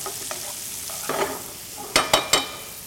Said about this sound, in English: So now I want to cook this down until my onions are soft and they're translucent.